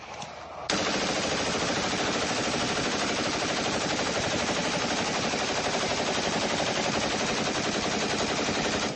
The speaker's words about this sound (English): Because this is what a tracer round looks like. And this is what a tracer round looks like at night.